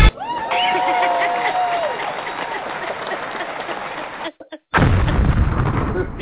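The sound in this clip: A bomb-drop sound effect: a whistling tone sinks in pitch over rumbling noise, a brief dropout follows, and then a loud, low, booming blast.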